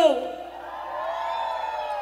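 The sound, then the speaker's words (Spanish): A single sustained shout from one voice: a loud, harmonic yell that opens with a sharp attack, dips briefly, then holds steady for about two seconds. “Algo tenemos que hacer. ¡Un grito!”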